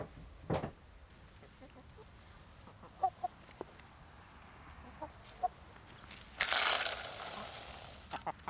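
Hens clucking, poultry fed on a cereal mix with millet: a few faint, short clucks over a quiet background, then a louder, rough rustling burst near the end.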